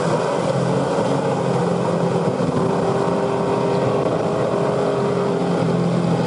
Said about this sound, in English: I give you the gear changes in the Formula One. On full tank, second gear for here.